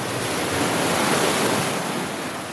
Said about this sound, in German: Und jetzt kommt eine Welle. Achtung, Achtung, Achtung, Achtung.